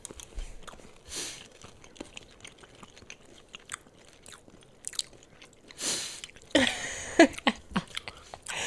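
Candies with tropical fruit flavors are chewed with crunchy bites and irregular crackling, growing louder and crunchier toward the end.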